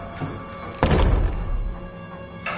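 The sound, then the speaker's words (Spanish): Heavy pounding on a door by a blind man in the 2016 thriller film, with one loud booming blow followed later by another thud over a low background. “El ciego golpea la puerta.”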